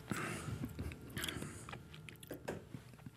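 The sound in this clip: A sip of Lambrusco sparkling red wine, heard as a few wet slurping and mouth sounds with soft crunchy clicks, fairly quiet, with no talk.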